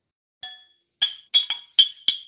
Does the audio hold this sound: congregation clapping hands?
no